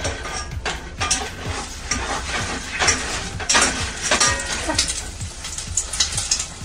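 Meat browns in hot oil in a saucepan, giving a steady sizzle with many crackling pops and small stirring knocks, rising and falling slightly in loudness.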